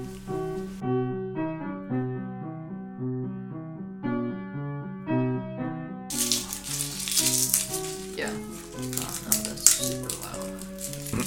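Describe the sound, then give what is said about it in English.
Garlic sizzles in a frying pan, a dense crackling hiss with scattered pops that enters partway through over steady melodic music, which first plays alone. “That's the sound of garlic.”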